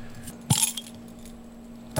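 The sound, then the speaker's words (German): Keys used in place of a bottle opener to open a bottle of Altbier: a few short, faint metallic clinks and jangles separated by quiet, over a low steady hum. “das hat eher so ein Schlüsselgeräusch gemacht gerade. Schlüssel, ja. In der Hektik heute kein Flaschenöffner eingepackt.”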